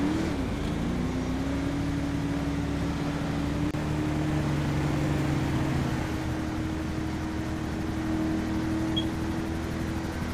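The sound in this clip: A car engine drones in a video game during a driving roleplay, holding a steady, even hum that rises slightly at the start and continues unbroken without any talk.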